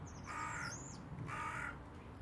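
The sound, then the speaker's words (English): Harsh cawing from crows in a flock of about twenty perched on a rooftop and telegraph wire: two evenly spaced caws, faint overall, with a thin higher bird call sliding over the first. “And the presence of Mr. Crow.”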